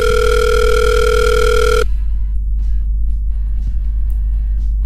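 Steady, loud telephone line tone while a call connects, lasting almost two seconds before cutting off abruptly, leaving a low hum and a few faint clicks.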